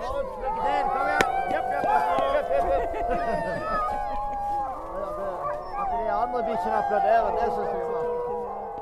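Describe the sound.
Sled dogs howl and yip eagerly in their harnesses before a cold night run across Finnmarksvidda, a dense chorus of overlapping, wavering high-pitched howls that carries on continuously.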